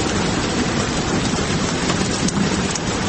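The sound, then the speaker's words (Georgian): Rain sound played from a loudspeaker installed in a room, a dense, steady hiss of falling rain that stays loud and even throughout with no other sounds. “ყოველ შემთხვევაში ოთახში დამონტაჟებული დინამიკიდან გამოსული წვიმის ხმა ოთახს წყლით ავსებს”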